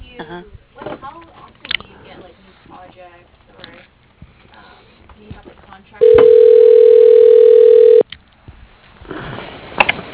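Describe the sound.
A telephone call is transferred to voicemail, marked by a single steady two-second tone. Talk over the phone line comes before the tone, and voices resume right after it.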